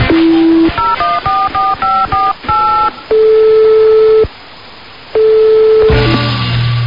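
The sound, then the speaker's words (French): Telephone keypad tones beep in a quick run as a phone call is dialed, followed by two long, steady ringing tones separated by a short gap. “le temps de donner un petit coup de fil à Michael”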